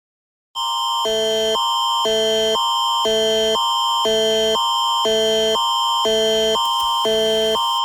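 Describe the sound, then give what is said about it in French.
Manitoba's national emergency alert system test tone: after a brief silence, a loud, harsh, buzzing electronic signal pulses steadily in rapid alternating bursts, many repetitions with no break. “Ceci est un message d'essai du système national d'alerte d'urgence en alerte, diffusé par l'Organisation de gestion des situations d'urgence du Manitoba.”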